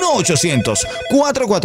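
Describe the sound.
A telephone rings after a toll-free number is dialed, a loud ringing tone heard alongside voices throughout.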